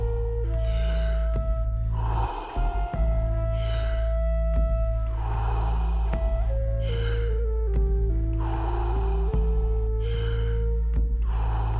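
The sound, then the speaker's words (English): Deep, continuous breathing with no pause between inhaling and exhaling: a steady series of heavy, airy breaths repeating throughout, over a sustained droning tone that runs underneath. “fully in and letting go. Just keep on going. No pause between inhalation and exhalation.”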